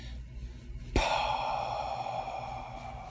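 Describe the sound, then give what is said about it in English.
A voice demonstrates an aspirated H with a single breathy exhalation. It starts abruptly and holds as a steady, airy hiss over a faint low hum for about two seconds. “the letter P strikes the H, and the H is pronounced like an exhalation.”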